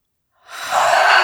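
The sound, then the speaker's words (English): A single deep breath drawn in from silence, a soft airy inhale that swells quickly and holds steady to the end. “Deep breath.”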